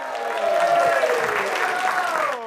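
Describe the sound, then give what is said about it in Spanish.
Audience applause for a comedian at a comedy show: steady clapping mixed with crowd noise, lasting a couple of seconds before tapering slightly at the end. “Para él también un aplauso de 12 sobre 10.”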